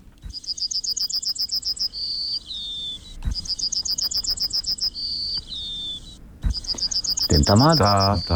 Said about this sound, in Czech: Ale teď vám pustíme ukázku, jak zpívá strnad z Vyžiny, konkrétně z obce na Berounsku.